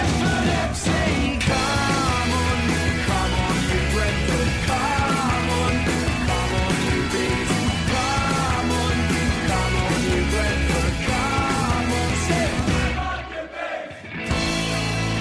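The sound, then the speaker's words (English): Loud, dense crowd noise fills a pub where people have been drinking, with continuous yelling and chanting over a steady rhythmic pulse that briefly dips near the end. “And as you can tell, I'm here in the pub.”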